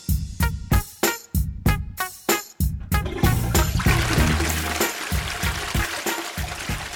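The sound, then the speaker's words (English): A toilet flushing: a series of sharp knocks, then a loud rushing surge of water that slowly tails off into a steady, softer flow. “That disgusting sound means it's time for this week's Toilet of the Week.”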